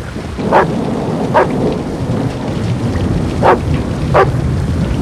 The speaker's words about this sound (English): The dog paces the run in the pouring rain.